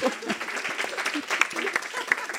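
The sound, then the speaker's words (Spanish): Audience applause during a talk: quick, crackling hand claps at moderate loudness, with a few voices mixed in. “Me estáis aplaudiendo todo.”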